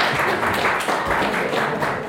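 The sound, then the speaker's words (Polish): Audience applause at a stage event as a regional singing group is welcomed on, a dense, steady wash of clapping that holds at an even level throughout. “bardzo serdecznie zapraszam na scenę. Olbrzymie brawa, oczywiście.”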